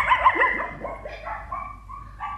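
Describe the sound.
A small dog yaps in a quick series of high-pitched barks and yips, some trailing into short whines, moderately loud and with no voices over them.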